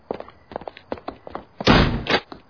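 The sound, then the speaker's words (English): A door is shut with a loud, heavy thud and then locked, with a second, smaller bump right after. A run of light, quick taps or steps leads up to it. “He locked the door.”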